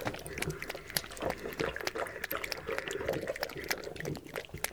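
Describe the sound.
Water being poured out for thirsty young ones, a steady, noisy splashing wash of liquid that runs without a break through the whole clip at a fairly low level.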